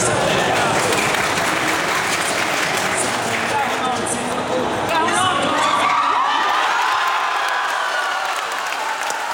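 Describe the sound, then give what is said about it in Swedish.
A crowd watching Sweden's World Cup opener in Harplinge church erupts at the 2-0 goal, with loud continuous clapping, shouts and whoops throughout, thinning slightly in the last few seconds. “Men vi kan väl höra då när nog glädjen var som störst i Harplinge kyrka vid 2-0-målet.”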